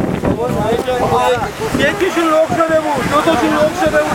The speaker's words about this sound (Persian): صدا بادم خیلی رفت تو میکروفونم متاسفانه دریا هم طوفانیه دریا خیلی طوفانی هست